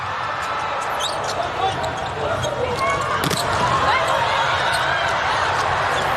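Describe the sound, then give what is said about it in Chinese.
A volleyball bounces a few times before a serve at a volleyball match involving Brazil. The thuds sit under steady crowd noise while a commentator talks. “现在看看巴尔加斯的发球。”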